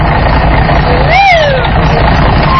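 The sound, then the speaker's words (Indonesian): A bus idles while waiting to carry passengers. A loud, steady low engine rumble fills the whole clip, and a brief tonal whistle rises and then falls in pitch near the middle. “ada bis yang siap mengantar penumpang. Bus. Bus. Bus.”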